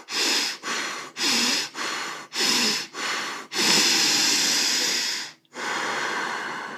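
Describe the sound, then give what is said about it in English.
A breathing-exercise round of loud, hissy breaths. A series of quick, forceful in-and-out breaths comes in an even rhythm, then one long drawn-out inhale and one long exhale, with no talk. “And in each round, we do 4 short breaths, 1 long breath. So I'm going to show you 1 round only.”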